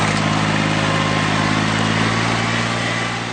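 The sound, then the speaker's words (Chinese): A rice transplanting machine roaring as it works in a paddy field: a loud, steady, unbroken engine drone that eases slightly at the very end. “走进南泥湾千亩稻田，插秧机在田间轰鸣穿梭，一排排嫩绿的秧苗被整齐地插入泥土。”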